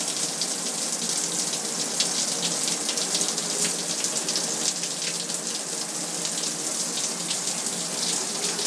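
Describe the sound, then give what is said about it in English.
Shower water sprays onto an iPhone in a steady, dense hiss like heavy rain on a surface. The hiss stays even and unbroken throughout, with no voices. “Sound of the iPhone having a shower.”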